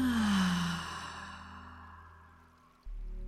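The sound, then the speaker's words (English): A deep breath exhaled through the mouth, a long, soft, breathy sigh that fades out gradually, followed by a low, steady hum. “let's take 3 deep breaths together here, in through the nose, out through the mouth”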